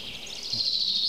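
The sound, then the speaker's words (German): High, thin birdsong from a counter-singing exchange between birds. A single continuous warbling phrase holds a bright, high pitch for about a second, with a faint low background beneath. “Jetzt sind wir Zeuge eines klassischen Kontergesanges.”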